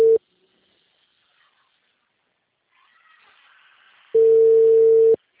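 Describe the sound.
Telephone call tone: a steady, mid-pitched electronic beep that cuts off briefly at the start, then returns as a single sustained tone of about one second after a stretch of near silence.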